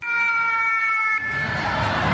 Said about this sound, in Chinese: 应急警报一响，校园疏散演练即刻启动